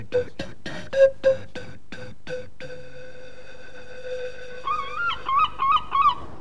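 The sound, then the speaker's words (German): Seagulls screech in a few sharp, wavering cries near the end, after a quick series of many sharp thuds and a steady low tone; no one talks. “Möwengeschrei dringt an sein Ohr.”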